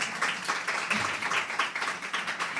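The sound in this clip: Audience applause at a public event: soft, steady clapping from a crowd, with bursts of hand claps pulsing irregularly throughout at a low level.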